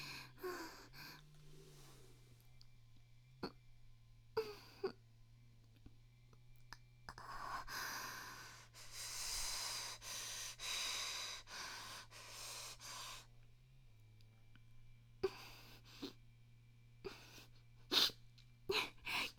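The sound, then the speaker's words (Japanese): Sniffling from a runny nose: many short, wet sniffs and snorts, with a longer noisy breathing stretch in the middle, all over a steady low hum. “すいません、ちょっと鼻水がもうなりふり構わずやってるんで”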